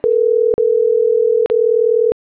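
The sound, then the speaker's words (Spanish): A telephone line tone sounds during the dialing of a call: a loud, steady, single-pitched electronic hum broken by two brief clicking gaps before it cuts off abruptly. No one speaks. “Me estoy marcando.”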